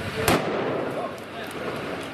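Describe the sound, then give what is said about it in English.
A single sharp gunshot from a soldier's rifle on a street: one loud crack early on, followed by a steady, noisy background. “That was the shot that killed him.”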